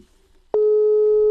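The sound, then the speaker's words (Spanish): Telephone tone on an unanswered call: after a brief near-silence, a click leads into a loud, steady, unbroken electronic tone that holds to the end. “¿Por qué no me atiendes? Atiende el teléfono.”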